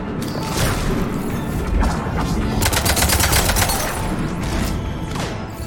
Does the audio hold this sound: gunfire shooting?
yes

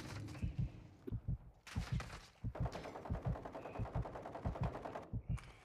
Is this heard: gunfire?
yes

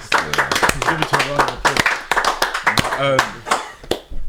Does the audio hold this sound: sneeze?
no

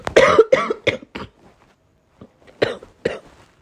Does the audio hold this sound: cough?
yes

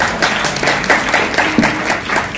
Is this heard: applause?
yes

